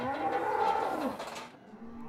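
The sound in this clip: A heifer moos loudly, one of several pregnant heifers in a livestock trailer being taken to pasture to dry off. A long, low, drawn-out moo fills the first second and a half, then fades to a quieter rumble.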